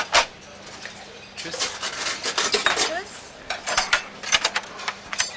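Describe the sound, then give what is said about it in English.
Dishes and cutlery clinking in a busy company cafeteria in Cologne: a dense clatter of metal and crockery with many sharp clinks and knocks over a low background murmur. “In most restaurants and company cafeterias, like this one in Cologne, serving exotic meat has already proved a short-lived experiment.”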